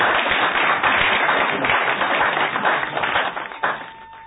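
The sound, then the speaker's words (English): An audience applauds: dense, rapid clapping at a steady level that thins and fades toward the end, with a few last claps trailing off. “Please keep the hands going for him after taking his seat.”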